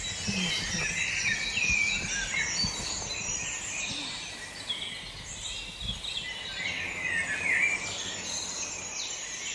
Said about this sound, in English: That's a dunnock that is calling in the background over here.